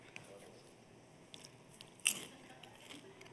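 Popcorn is chewed in quiet, brittle bites: faint scattered crunches and one louder crisp crunch near the middle.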